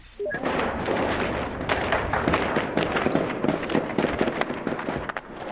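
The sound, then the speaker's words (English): Gunfire in the streets of Kabul during an attack by armed militants on the presidential palace and government buildings: many sharp, irregular cracks and bangs in rapid succession over a sustained rumbling background. “that's the sound of gunfire echoing in the streets of Kabul this morning”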